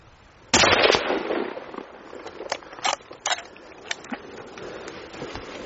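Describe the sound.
A single sharp rifle shot fired at a moose during a hunt in British Columbia, a loud crack with a decaying tail, followed by scattered softer pops and knocks.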